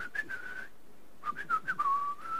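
A person whistles a tune while waiting by a parked car in Lubumbashi, two faint melodic phrases of clear notes with a short gap between them, heard alone.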